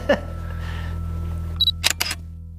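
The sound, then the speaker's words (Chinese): A camera shutter fires as a photo is taken of a horse whip. A brief high tone is followed by a quick cluster of crisp, sharp clicks near the end, after an earlier single click and a quiet stretch. “我拍照，啊。”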